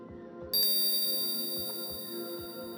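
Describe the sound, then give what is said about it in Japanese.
A hypnosis bell gives a single bright, sharp strike that rings on with a shimmering sustain and slowly fades, above a quiet low background. “催眠ベルを聞くたびに頭の中にもやがかかる。”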